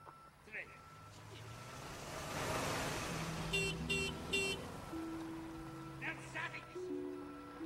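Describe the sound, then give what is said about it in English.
A removal van and a silver car pull up at an apartment building. Engine rumble swells and eases while three quick electronic beeps sound midway over low sustained tones. “A removal van pulls up at the Pink Palace Apartments, just preceded by a silver car.”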